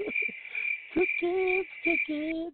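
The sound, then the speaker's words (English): Cricket sound effect: a steady, high, unbroken chirring tone runs through the short clip, with a few lower, intermittent croaking calls underneath. “crickets”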